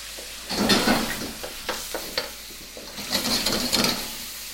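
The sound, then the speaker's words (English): Garlic, ginger, scallions and beef stir-frying in a pan give a steady sizzle, broken by a few bursts of scraping and stirring strokes. No one speaks. “So we got the garlic and ginger and scallions and beef going.”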